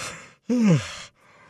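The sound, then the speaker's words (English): A single yawn from a person on a sports news talk segment, a drawn-out breathy vocal sound whose pitch slides downward before fading, heard alone between stretches of quiet background hiss. “Sorry. Didn't mean to yawn on you there.”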